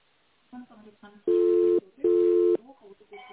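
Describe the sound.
Telephone tones heard while waiting for an answer on a business call: two steady, mid-pitched beeps of about half a second each, separated by a brief gap, with short bits of voice before and after.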